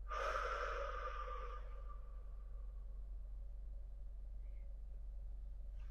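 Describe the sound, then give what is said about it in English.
A single soft breath, drawn in through the nose and let out through the mouth, followed by near silence over a low, steady hum. “Exhale out of the mouth. Breathe in through the nose. Exhale out of the mouth.”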